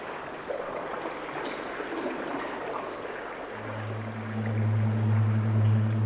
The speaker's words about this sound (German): Wasser. Endlich haben wir Wasser.